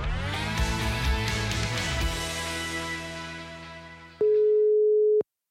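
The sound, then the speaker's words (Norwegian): A telephone call tone rings out while calling a friend: music fades away, then a single steady, clear tone holds for about a second and cuts off. “Og nå så skal vi ringe min gamle venninne, Anne-Marie.”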